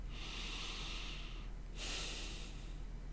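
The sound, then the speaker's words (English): A deep breath taken during a relaxation exercise: two long, airy, hissing breath sounds split by a brief pause, steady and fairly soft. “Take a deep breath.”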